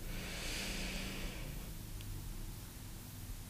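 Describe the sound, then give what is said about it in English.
Slow inhale through the nose during a guided breathing exercise, a soft airy hiss that swells for about a second and a half, then thins into quiet background. “And again, inhale through the nose.”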